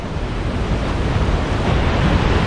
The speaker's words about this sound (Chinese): 在湿季的汛期，每秒约有5000吨的河水从维多利亚瀑布倾泻而下。